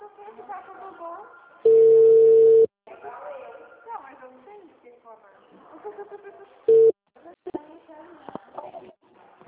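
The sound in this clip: A steady telephone tone follows a dropped call. One long beep is followed later by a short one, with people talking before, between and after the tones.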